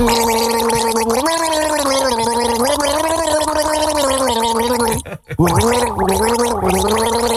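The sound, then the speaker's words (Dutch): A person gargles a song melody, producing a loud, bubbling, pitched drone whose tune steps up and down steadily, with a brief break near the end before the gargled melody resumes. “Dat is dan wel knap gegorgeld, hoor.”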